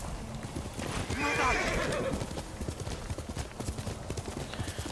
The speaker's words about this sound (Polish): Konik jest, wsiadamy i dajemy czadu.